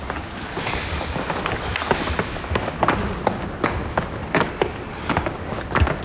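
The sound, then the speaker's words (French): Footsteps climb the stairs of an old prison in a steady run of many light taps and thuds over a faint, noisy background. “On peut continuer à monter les escaliers.”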